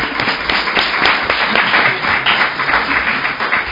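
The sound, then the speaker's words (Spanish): Audience applause fills the moment, dense and loud clapping from many hands that stays steady without a break. “Así que yo haría un aplauso mucho más grande por si acaso se le ocurre pintar al público, que quedéis bien, ¿sabes?”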